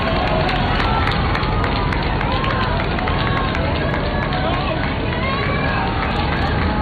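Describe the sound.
A dense, loud crowd hubbub fills a street in Spain during the Pope's visit. Many voices blend into a continuous wash with scattered higher shouts or whistles. The level stays steady throughout with no breaks.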